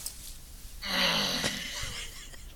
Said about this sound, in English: What is that? That was a weird groan.